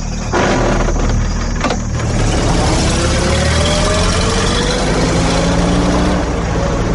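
A car engine runs steadily as the car drives back toward a hunting bungalow at night. Its loud, constant low rumble is threaded with faint whines that slowly climb in pitch.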